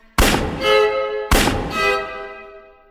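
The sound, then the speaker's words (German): Two loud pistol shots ring out a little over a second apart, each a sharp crack followed by a long, booming, ringing decay. “Ah, oh, zum Glück, ich habe nicht daneben geschossen.”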